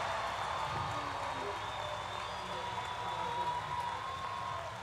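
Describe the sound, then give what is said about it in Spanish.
Faint applause, a soft, even wash of many hands clapping that holds steady throughout without clear individual claps. “¡Un aplauso!”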